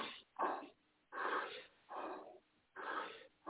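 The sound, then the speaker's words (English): Deep breathing during a meditation exercise, slow airy inhales and exhales in an even rhythm, a few full breaths in a row with no talk over them. “take a deep breath. Exhale, inhale, suck it in,”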